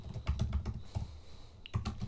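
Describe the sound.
Someone types a note into a question list on a computer keyboard: many quick, irregular keystrokes in short bursts, with a brief pause midway before the tapping resumes.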